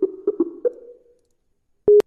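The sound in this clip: Telephone tones while dialing a call: four short, low beeps in quick succession, their tail fading out, then after a silent pause one louder, steady tone with sharp clicky edges.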